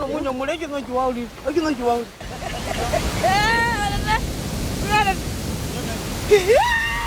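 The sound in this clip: Ocean waves during a shoreline ritual give a steady, broad roar of surf that swells after a brief lull, while voices with gliding, song-like tones sound intermittently over it.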